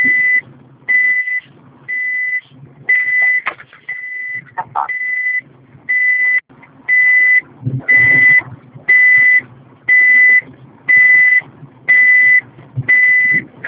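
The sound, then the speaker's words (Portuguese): A phone call's ringing tone: a long run of evenly spaced, mid-high electronic beeps, each lasting under a second, with faint low background noise in the gaps. “Ah, tá ligando. Tô esperando, vai chamar a Camila.”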